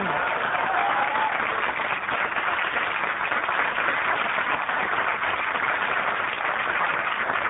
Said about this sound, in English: That's a hell of a round of applause for just guys sitting here.